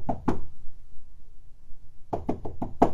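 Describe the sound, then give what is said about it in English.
A visitor knocks on a house's front door: two knocks, a pause, then a quick series of five more raps. “She stepped out of the car and walked hand in hand with Pearson to the front door. Pearson knocked a couple times”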